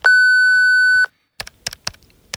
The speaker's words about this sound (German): aber die Jungs von Geil und Gründlich, die hinterlassen ihre Nachricht nach dem Piep.